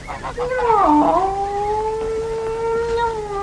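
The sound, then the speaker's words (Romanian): A cat wails in one long, drawn-out, harmonic yowl, loud and continuous. Its wavering pitch dips early on, then settles into a sustained, steadier howl. “Mai taci din gură, pisică proastă. Nu te mai văicării atâta.”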